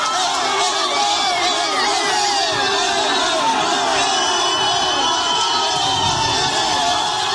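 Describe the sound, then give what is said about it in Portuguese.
Football fans cheering, whooping and shouting together in celebration of Neymar's call-up to Brazil's 26-player squad, a dense, loud and unbroken crowd roar that holds steady throughout. “quem está acompanhando a gente com imagens na Band News FM pode acompanhar o momento da convocação do Neymar, inclusive pouquinho antes, já tem o início de celebração por torcedores. A gente vai subir até o som, porque acho que é autoexplicativo.”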